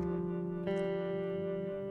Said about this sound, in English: So there's sort of a drone, just one sound that was originally from the guitar,